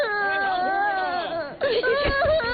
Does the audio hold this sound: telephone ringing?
no